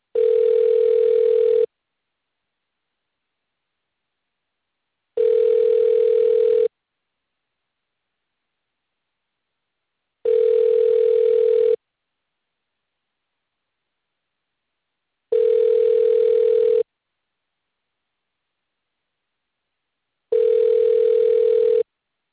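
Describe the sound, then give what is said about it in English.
Telephone ringing tone heard while calling a roadside service: five even, mid-pitched buzzing tones, each lasting about a second and a half, separated by long silent gaps. “Calling Simply Narrow Roadside Service.”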